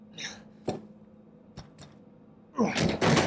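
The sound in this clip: Door closing in a video game, Resident Evil Village, heard as a few short, dull thuds spaced apart, followed by a louder, longer noisy burst at the end.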